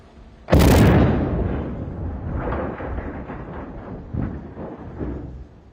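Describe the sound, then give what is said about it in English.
An explosive blast demolishing bridge sections that lie on a giant container ship: one sharp, loud boom, then a long rumbling decay with a few lighter bursts and crackles. “Crews detonated explosives yesterday to blast parts of the structure off the giant container ship that destroyed the bridge in March.”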